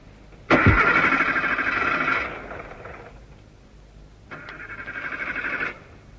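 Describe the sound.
A car engine being started in two cranking attempts: the first opens with a sharp click and whirs for about two seconds before dying away, and after a pause a second, shorter whirring crank follows and cuts off.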